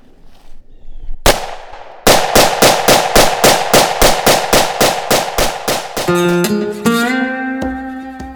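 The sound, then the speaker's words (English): Rapid rifle fire during militia training as a shooter empties a magazine: one loud shot, a short pause, then a fast, evenly spaced string of many sharp cracks. “After the pistol drills, they move on to rifle training. All right, go ahead. Burn that mag as fast as you can. Going hot.”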